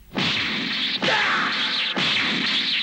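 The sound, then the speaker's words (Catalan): Powerful kick strikes in an animated martial arts tournament fight on a ring, heard as three loud sweeping whoosh-thwacks, each about a second long and following right after the last. “D'una forta puntada de peu, en Goku envia Nam fora del ring.”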